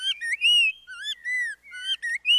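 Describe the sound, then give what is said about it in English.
Spot-breasted oriole song from a suburban neighborhood in southeast Florida, a series of clear, loud, melodic whistled phrases with brief gaps, sliding up and down in pitch, heard alone. “Found in suburban neighborhoods around southeast Florida, spot-breasted orioles were first brought to Florida in the 1940s from Central America.”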